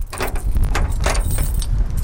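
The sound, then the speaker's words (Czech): A bundle of keys jangles as a local priest carries them to a hilltop chapel above Moravský Krumlov. Bright metallic clinks come in several quick bursts over a low, rumbling wind. “Místní pan farář vzal svazek klíčů a ke kapli se ochotně vydal spolu s kolegyní Jarkou Vykoupilovou.”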